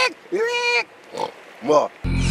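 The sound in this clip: Pigs grunting, a few harmonic grunts of varying length separated by short pauses, followed by a steady noisy sound at the end.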